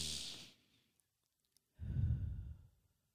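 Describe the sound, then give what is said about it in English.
Breathing in and out during a guided eyes-closed breathing exercise: a short hissing inhale, then after a pause a longer, lower, sighing exhale, quiet and alone. “you're going to take five breaths. Just breathe.”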